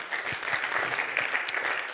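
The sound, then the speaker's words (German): Audience applause, fairly faint, with a few individual hand claps standing out from a soft, steady patter for two seconds. “Ja, das ist Applaus an euch, oder?”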